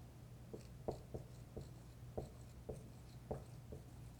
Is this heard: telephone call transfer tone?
no